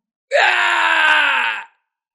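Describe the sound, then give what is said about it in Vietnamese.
A man's agonized scream after an arrow pierces his heart and pins him to a wooden post on a watchtower at night: one loud, sustained, strained cry lasting over a second at a fairly steady pitch before cutting off sharply. “Tiếng kêu thê lương thảm thiết vang lên, vang vọng dưới bầu trời đêm.”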